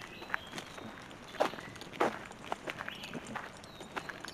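Footsteps along a back trail in Helltown, Ohio, a faint, irregular series of scuffing steps, with a few louder footfalls standing out.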